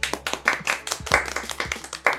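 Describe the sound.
An audience applauds to welcome guests at a public talk. Dense, steady clapping from many hands, fairly soft and even throughout, with no voices standing out.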